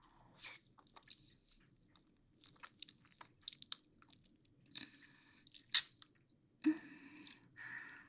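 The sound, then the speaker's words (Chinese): Biting and chewing cake: many soft, irregular, moist crunches and mouth squishes, faint and heard alone, with a few louder bites in the later part. “今天买的蛋糕还没有吃呢，要不要尝一下？”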